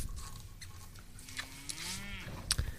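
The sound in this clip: A cow moos once in a film, a single drawn-out low call that holds its pitch briefly over a faint background.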